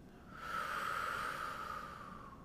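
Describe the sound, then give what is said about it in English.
One slow, deep breath during a guided inhale-exhale breathing exercise, a soft airy hiss that swells and then fades gradually over about two seconds, alone and quiet. “Inhale, exhale, presence. Last time, inhale,”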